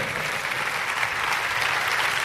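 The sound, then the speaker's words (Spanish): A church audience breaks into applause during a sermon. Many hands clap in a thick, steady wash that stays at a fairly constant level for the whole brief moment. “Dáselo a Jesús, porque si alguien merece un aplauso es nuestro Salvador y Señor.”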